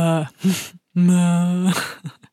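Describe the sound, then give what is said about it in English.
A voice imitates a reluctant groan, with a few short voiced grunts around one long, steady, low drawn-out 'ugh' that trails off into breathy bits. “It's kind of a groan.”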